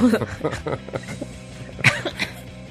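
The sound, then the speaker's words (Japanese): Someone coughs after choking on something, several short, rough bursts mixed with chuckles, with a person talking between them. “ごめん、むせちゃった。”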